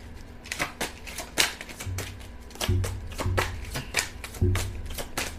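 Playing cards being shuffled and handled, cards that stick together. Many quick papery riffles and soft taps come in uneven bursts, moderately loud, with no voices.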